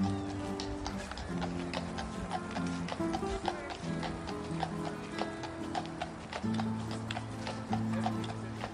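Horse hooves clip-clop as a small group of riders approaches, with many steady, even hoof strikes throughout over sustained low musical tones.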